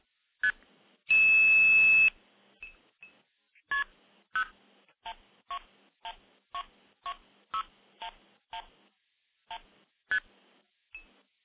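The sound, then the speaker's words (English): Telephone touch-tone dialing into a remote phone switch: a long steady tone burst, then a regular run of about fifteen short, clear DTMF beeps at an even pace, loud and alone against silence. “So let me initiate the stack by dialing into a switch up in Minnesota. We'll do that right now.”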